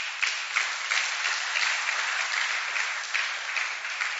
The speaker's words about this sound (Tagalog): Pwede ba palakpakan natin ang Panginoon?